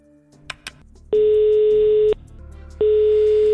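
Ringback tone sounds while a phone-in contest calls a contestant: two long, steady buzzing rings about a second each, separated by a short pause, after a couple of faint clicks.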